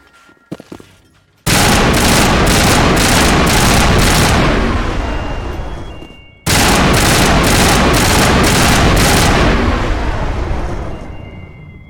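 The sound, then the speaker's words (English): Video game gunfire as power junctions are shot, two long, loud bursts of rapid automatic fire lasting several seconds each, preceded by a few sharp single shots. “Well, shooting the power junctions didn't seem to take the kinetic barriers offline.”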